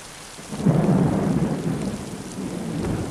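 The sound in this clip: Rain falls steadily with a deep rumble of thunder that swells early, then rolls on under the constant hiss of rainfall.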